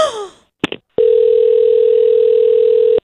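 A telephone dial tone sounds as a call is placed: a steady, loud, single-pitched tone holds for about two seconds, preceded by a couple of sharp handset clicks and a brief vocal sound at the start.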